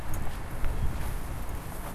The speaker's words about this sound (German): Wir gehen jetzt mal, was wie ein Weg aussieht oder ein Trampelpfad.